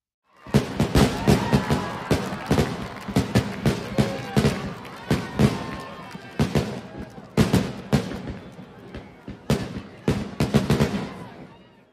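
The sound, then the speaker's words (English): Fireworks exploding in a rapid series of many loud, sharp bangs and crackles, the bursts following close on one another throughout the twelve seconds. “This can be a loud sound, but it makes pretty colors in the sky.”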